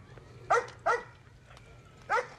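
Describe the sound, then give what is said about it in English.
A chained-up black dog barking: three sharp barks, two close together and a third after a pause, over a faint low background hum. “A chained-up black dog barks at him.”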